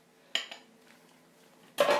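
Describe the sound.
A spoon clinks and scrapes against a bowl as a thickening caramel mixture of butter and sugar is gently stirred. A sharp clink comes early, followed by a longer, bright scraping burst at the end.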